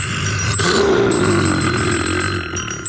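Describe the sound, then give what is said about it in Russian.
A telephone rings in a steady, unbroken burst of bright, high-pitched ringing that stays loud throughout, layered over a lower rumbling tone. “Тут у меня звонок один, очень важный, ответить надо.”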